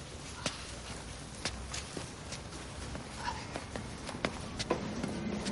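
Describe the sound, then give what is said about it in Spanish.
Uneven footsteps of a man walking with a limp: several soft, irregularly spaced steps over a steady low background hiss. “La imagen funde a negro. Trevor camina cojeando.”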